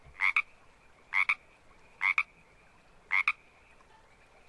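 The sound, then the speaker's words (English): A frog croaks four times at roughly one-second intervals, each call a short two-part ribbit with a bright, raspy tone, alone against quiet background. “That is the sound of universal frog.”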